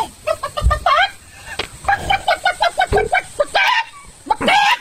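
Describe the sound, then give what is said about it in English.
A woman imitates a chicken with her voice: many rapid, loud clucks in bouncy runs, broken by a few higher, rising squawks. “She's doing the arm chicken thing. Like she's walking around pretending to be a chicken.”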